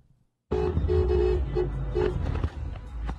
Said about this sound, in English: A flatbed just drove by with a bunch of hay bales on fire.